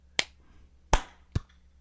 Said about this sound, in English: We're going to do a big clap all at the same time. Are we ready? Okay, yeah. Okay, one, two, three.